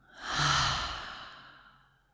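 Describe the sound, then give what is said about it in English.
A deep breath let out through the open mouth as an audible sigh, one airy exhale that swells quickly and then fades slowly over about two seconds. “Let's take a big breath in. Open the mouth.”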